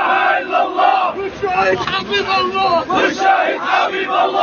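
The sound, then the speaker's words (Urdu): Loud, continuous chanting of slogans by a large crowd at a funeral procession for a journalist in Palestine, many voices shouting together in a steady rhythmic roar. “بڑی سنکھیا میں فلسطینیوں نے بھاگ لیا اور اسرائیل مرد آباد، امریکہ مرد آباد کے نعروں سے پورا واتاورن گونجنے لگا۔”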